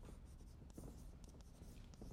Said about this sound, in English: If I'm writing, you should be writing.